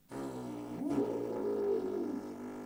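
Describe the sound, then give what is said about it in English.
Dingo howl imitated with the lips on a didgeridoo: a low buzzing drone with a swelling, howl-like tone that rises out of it and sustains for about two seconds before fading. “when you play the didgeridoo, and you use this, for example, the dingo, woo, all right, that's a howling noise, similar to the wolf, all right? When you hear that noise, and you do that with your lips,”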